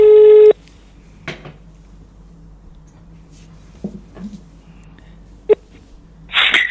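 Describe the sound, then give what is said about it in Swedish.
A telephone call is placed: a loud steady tone at the start, then a few quiet clicks and a short sharp beep, ending with another loud tone burst. “Så därför ska vi ringa och kolla vad han gör nu för tiden.”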